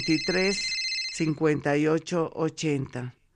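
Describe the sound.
A telephone rings with an incoming call, a steady high-pitched ring during roughly the first second, heard beneath continuous talking that carries on after the ring stops.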